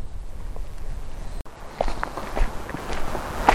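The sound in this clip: Footsteps of a person walking on a misty trail: many steady, even steps crunching softly in a regular rhythm over faint background noise.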